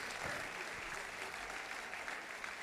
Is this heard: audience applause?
yes